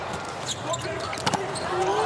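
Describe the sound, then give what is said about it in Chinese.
Brief, sharp ball strikes of a volleyball serve during an Italy versus USA match, heard under continuous Chinese-language commentary over a low arena murmur. “好发球。”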